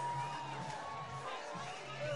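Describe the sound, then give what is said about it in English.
A baseball crowd cheers at a San Jose game after a two-run home run, a steady, fairly faint roar of many voices that holds for the whole moment with only small swells. “And San Jose's crowd getting excited for the 2-run homer for Eldridge.”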